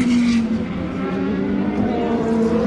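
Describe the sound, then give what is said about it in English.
Petrol race cars, an Aston Martin and a Dome, passing at racing speed produce a loud, continuous engine roar with a steady, droning pitch and no clear gaps throughout. “There go the three Peugeots, followed by one of the Audis. At racing speed, so that's the sound of the Aston and the Dome.”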